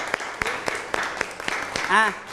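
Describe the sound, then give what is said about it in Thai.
Classroom students clapping for a classmate, a steady run of light, scattered claps at a moderate level, with a brief voice rising near the end. “รูปร่างรูปทรงปรบมือให้เพื่อนหน่อยครับ”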